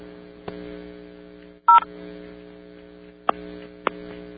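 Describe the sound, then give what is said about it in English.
A single short touch-tone beep from a telephone keypad dialed over a phone line, with three sharp clicks scattered around it and a steady low mains hum underneath. “We heard one touch tone.”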